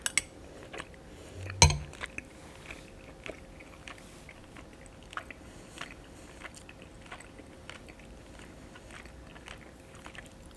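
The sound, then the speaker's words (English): Soft chewing of tender beef chunks from galbitang soup, quiet and wet, with scattered small clicks and one sharper knock early on. “I'm gonna try on these beef chunks now.”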